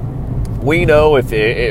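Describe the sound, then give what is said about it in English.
A truck engine rumbles low and steady during an early-morning drive into town, while a voice talks over it. “I'm coming to you from my early morning truck ride into town.”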